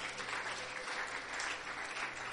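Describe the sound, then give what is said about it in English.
Applause from a church audience clapping their hands, a dense, steady wash of many hands that holds at an even level for the whole stretch, without voices standing out. “Would you please clap your hands for them as they are coming forward?”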